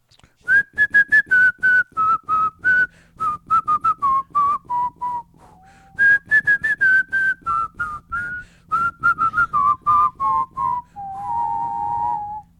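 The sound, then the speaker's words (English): Two people whistle a tune together in short, clipped notes grouped into phrases. The loud, clear melody steps gently downward within each phrase and ends on a held note sounding two pitches at once. “duet whistling. Duet whistling. That was impressive.”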